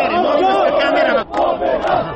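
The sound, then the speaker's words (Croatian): A noisy crowd of Chetnik movement supporters celebrates outside the Palace of Justice after a High Court ruling, with many voices shouting and chanting together, loud and continuous, dipping briefly before surging again. “Nakon što je sudija Aleksandar Trešnjev pročitao odluku Višeg suda, ispred Palate pravde usledila je bučna proslava pripadnika četničkog pokreta uz čestitke i oduševljene zagrljaje.”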